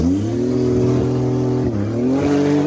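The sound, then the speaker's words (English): A diesel race car engine passes at a racing starting line: a loud, steady, deep droning tone dips briefly near the end and then climbs again as it revs. “There's another diesel.”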